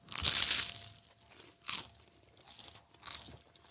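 Crunchy bites into buffalo or sriracha flavoured tuna: three crisp crunching bursts, the first the longest and loudest, with quieter chewing between them.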